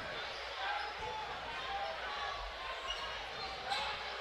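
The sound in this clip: A basketball being dribbled on a court during a game, with a few dull bounces barely standing out from a dense, steady background roar.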